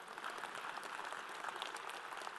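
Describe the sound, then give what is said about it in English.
Faint audience clapping during a talk: many hands patter quietly in a continuous, even spread that neither builds nor fades. “Yeah, we can clap. Go ahead.”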